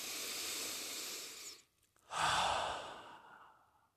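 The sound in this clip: A slow, deep breath drawn in, heard as long airy hissing with no voice. Two long breaths are separated by a short pause, and the second is louder and fades gradually.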